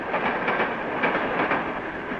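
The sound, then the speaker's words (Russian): Railway carriage rolling on the rails, heard from the train vestibule: a steady broad rumble with a regular, repeating clickety-clack of wheels passing over rail joints, moderately quiet and with no voices. “Тамбур в вагоне поезда.”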